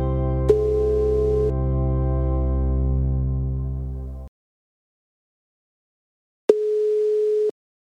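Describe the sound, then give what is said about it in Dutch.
A telephone ringback tone sounds while a call is being placed: two one-second tone bursts several seconds apart. The first rings over a loud, low buzzing drone that cuts off abruptly, leaving silence before the second ring. “voor het antwoord gaan we even bellen met Mette van de Zijs”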